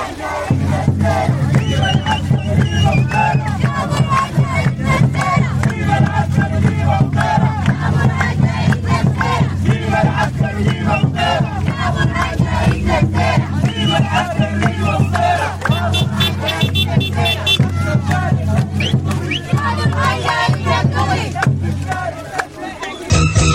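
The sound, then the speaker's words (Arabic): A protest march in Atbara, Sudan, chants slogans demanding civilian rule and denouncing military rule. Many voices rise together in loud, rhythmic unison, sustained without a break over a dense crowd roar. “وانطلقت مواكب عطبرة إلى الدامر مرددة هتافات تطالب بالحكم المدني وتندد بالحكم العسكري. وردد المشاركون في الموكب هتافات”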